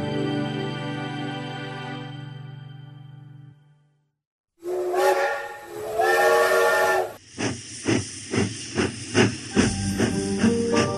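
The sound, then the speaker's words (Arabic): A steam train's whistle gives a long, steady harmonic blast, then cuts off into a brief silence. Loud hissing steam follows, then many rhythmic, evenly spaced chuffs of the locomotive. “توت توت توت، وقبل قطر الأحلام ما يعدي ويفوت”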